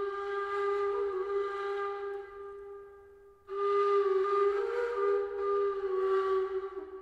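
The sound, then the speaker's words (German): A nai flute of giant cane (Arundo donax) plays a breathy, sustained tone in two long held phrases split by a short break. The pitch stays steady, wavering slightly toward the end. “Etwa zur gleichen Zeit erfindet auf der afrikanischen Seite des Mittelmeeres ein unbekannter Musiker die Nai-Flöte, die sich über den ganzen orientalischen Raum verbreitet, ebenfalls aus Arundo donax.”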